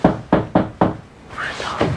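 Four loud, evenly spaced knocks on a locked door, heavy and thudding, followed by a quieter stretch of softer sound.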